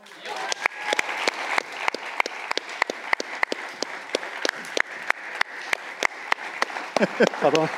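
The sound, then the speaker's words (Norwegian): Audience applause welcoming the evening's guest at a live hunting talk event: dense, sustained clapping with many sharp hand claps, steady throughout and slightly busier toward the end, where a voice briefly comes in. “nå har vi gleden av å ønske kveldens gjest velkommen og jeg synes vi skal slå til med en kjempeapplaus til Per Forsetlund.”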